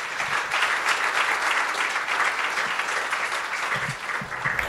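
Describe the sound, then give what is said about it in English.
An audience applauds to welcome a speaker, a full, steady wash of clapping from many hands that carries on throughout and eases a little near the end. “Would you please put your hands together and welcome Elizabeth.”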